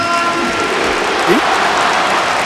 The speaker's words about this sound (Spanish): Aplauso del estadio para Antoine. Ovación.